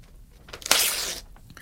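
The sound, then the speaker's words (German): A paper contract being torn up: faint rustling builds into one quick, harsh rip lasting about half a second, then trails off into a few soft crinkles. “Ja, und unser Vertrag? Warum zerreißen wir das Ding nicht einfach?”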